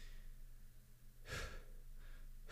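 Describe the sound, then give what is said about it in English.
Quick, sharp breaths from someone demonstrating a breathing technique for anxiety, lying down to breathe in sharply and out fast. A few brief, faint breaths stand out over a steady low hum. “I'm like showing you guys how to breathe”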